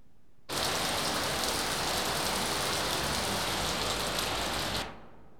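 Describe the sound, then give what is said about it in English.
Steady rain pours down as a dense, even hiss that starts abruptly, holds at a constant loud level for about four seconds, then cuts off, leaving a faint quiet tail. “R. Rain. It's rain. Rain. R. Rain.”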